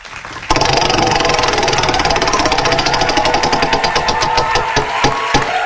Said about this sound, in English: why don't you go ahead and spin the wheel?